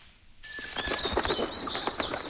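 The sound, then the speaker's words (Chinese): Various birds call at a lake wetland on a spring morning at Baiyangdian, with many quick, bright chirps and thin high notes overlapping faintly after a brief quiet start. “晨光熹微，清脆的鸟鸣划破了白洋淀的宁静，各种鸟叫声此起彼伏，交织成一场动人的音乐会。”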